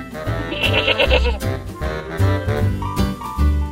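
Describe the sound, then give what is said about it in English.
A goat bleats in a wavering, nasal cry. The call is loud and continuous over a steady, dense background, with no speech. “Listen and find. Goat.”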